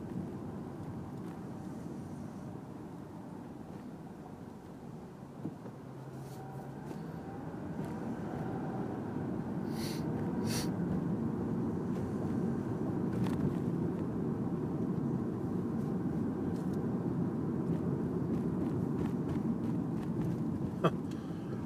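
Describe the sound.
Steady ambience at a gas station, the last one on the way out of town, is carried by a constant low engine and traffic rumble. A few faint, brief clicks sit over the hum, and no one talks.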